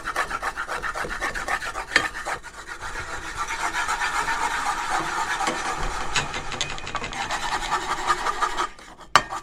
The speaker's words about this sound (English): I gotta scrape some of this egg off.